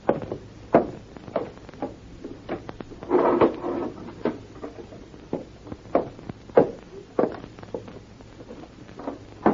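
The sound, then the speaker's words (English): Footsteps and the opening of a cupboard to fetch a first aid box come through as soft, irregular steps and wooden knocks and clunks. A brief rustling handling sound falls midway through. “In that cupboard over there is a first aid box. Would you bring it to me?”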